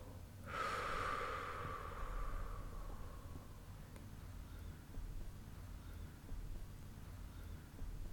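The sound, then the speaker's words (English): One slow relaxation breath, drawn in through the nose and let out through the mouth, makes a soft rush of air that swells quickly and then fades gradually over several seconds against a quiet background. “inhale through your nose by swelling your belly. And exhale for a longer time through your mouth.”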